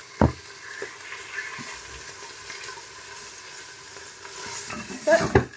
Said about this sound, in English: It can be your sauté like this, so you can brown the meat